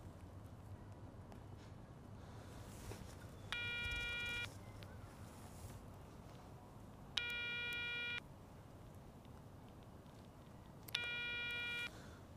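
An outgoing telephone call rings with no answer. Three ringback tone bursts, each about a second long, are spaced by pauses of several seconds over a quiet background hum.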